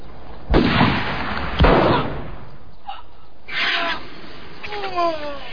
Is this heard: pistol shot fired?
yes